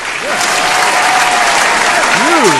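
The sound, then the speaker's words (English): A studio audience applauds a guest actor with loud, dense, steady clapping that fills the whole stretch while a voice speaks over it. “Ladies and gentlemen, one more time, give it up for Steven Weber.”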